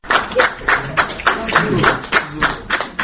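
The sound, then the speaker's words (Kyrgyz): Rhythmic applause at an event honoring disabled people in Osh, where organizations and politicians handed out gifts. Many sharp claps land in a steady, even beat throughout. “Мына ушундай шатырата кол чабуулар”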